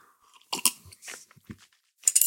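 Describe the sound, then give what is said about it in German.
A sip of tea comes through as a few short, quiet, wet mouth noises and clicks, separated by silence, with no talking. “ein Schluck Tee”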